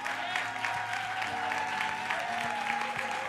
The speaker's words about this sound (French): oui, est-ce qu'on peut se lever pour acclamer le pasteur?